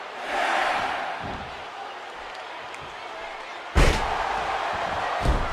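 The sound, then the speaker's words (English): A heavy thud as a wrestler lands a scoop slam onto the mat in a professional wrestling match, rising sharply out of a steady crowd roar; a smaller thump follows near the end. “Rick Martel now with a huge scoop slam. Martel now picks up Benoit.”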